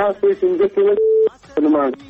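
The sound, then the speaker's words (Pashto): A steady single-pitched telephone tone sounds briefly after a call's line is cut off, a clean held note of about a third of a second set between stretches of people talking. “هلو، فکر کوم چې اړیکه یې هم پرې شوله. له بده مرغه اړیکه پرې شوله”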